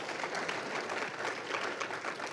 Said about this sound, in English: They deserve our applause tonight because of all the great work that they do over there